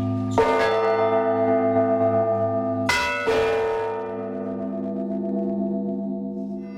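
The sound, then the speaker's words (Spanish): A church bell is struck twice, each stroke opening with a bright clang that blooms into a rich, slowly fading hum of dissonant overtones, ringing alone with no voices. “La campana es el símbolo, digamos, acústico del tránsito. La campana es el único instrumento con dos fundamentales a una altura, digamos, de disonancia.”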